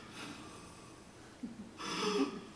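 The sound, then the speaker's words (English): A voice imitates a small child's muffled crying in bed: soft, breathy sniffles and a few snuffling catches, ending in a louder, rougher burst of stifled sobbing. “But I was crying in my bed like this.”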